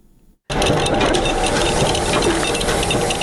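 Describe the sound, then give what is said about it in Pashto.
Two machines at a century-old state printing press in Nangarhar, worn and short of repair, print and cut paper. Their loud, dense mechanical clatter starts abruptly after a brief quiet moment and then runs steadily. “دا د سلکلنی دولتي مطبعې لنه څخه یوازې د دوه ماشینونو غږ دی چې یوې چاپ کوي او بلې کاغذونه پرې کوي.”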